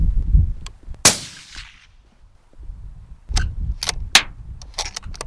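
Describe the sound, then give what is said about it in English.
A rifle is test-fired to check its sights in a wide open field: one loud, sharp shot with a ringing tail, followed by several sharp clicks and knocks over a low rumble of background noise. “he's just setting up his rifle, just going to test fire, check his sights, check his rounds.”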